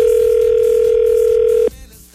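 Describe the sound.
A telephone ringback tone plays while a call is being placed: one loud, steady, mid-pitched tone holds for under two seconds, then cuts off and leaves faint line noise.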